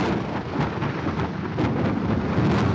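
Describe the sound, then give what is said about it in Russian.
A thunderstorm fills the whole clip with a loud, continuous rushing roar, like wind and heavy rain, that never breaks; no voices are heard. “Гроза! Гроза! Вот что!”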